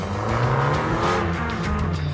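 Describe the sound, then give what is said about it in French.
A Fiat Abarth 595C with a 1.4-litre T-Jet turbo engine of 165 hp runs on the banked rooftop circuit of a Fiat factory. Its engine gives a loud, steady, buzzing drone with layered harmonics throughout. “Avec une vitesse maxi de 225 km/h, la Abarth 595C est une vraie petite bombe.”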